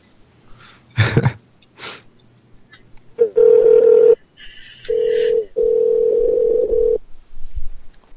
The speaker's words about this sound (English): Hello, caller. You're on the air. You hung up.